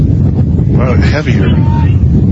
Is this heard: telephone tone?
no